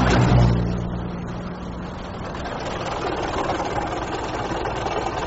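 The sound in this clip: A car engine drones as the car is driven at high speed. The loud, low, steady engine hum is strongest at the start, then settles into an even, continuous roar.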